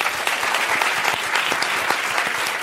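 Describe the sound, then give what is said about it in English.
A round of applause for Black History Month Pantheon inductees at an event: dense, steady clapping from a large group, even in loudness throughout. “So I just want to have another round of applause”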